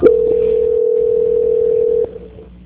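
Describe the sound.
Telephone tone during a call transfer: a steady, single-pitch electronic tone holds for about two seconds and then cuts off, leaving faint line hiss.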